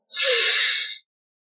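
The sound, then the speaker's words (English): A deep inhale during a box breathing exercise: one steady, airy breath drawn in for about a second, heard clearly and alone, then cut off into silence. “It's where you breathe in for four”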